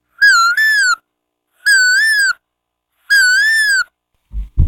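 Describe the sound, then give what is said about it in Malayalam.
A human voice imitates the call of a koel (cuckoo) with three clear, loud, whistle-like calls, the first split into two parts. Each is a sustained high tone with a slightly wavering pitch, separated by silent pauses; a brief low thump ends it. “ഇനി കുയിൽ.”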